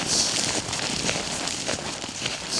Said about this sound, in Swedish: Ja, pulsar genom snön.